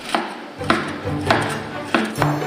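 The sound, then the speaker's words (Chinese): A knife slices cooked beef into thin, even slices on a board, giving five sharp, evenly paced taps with short crisp attacks at a steady rhythm, moderately loud with no talking. “提前煮熟的牛肉切成均匀的薄片”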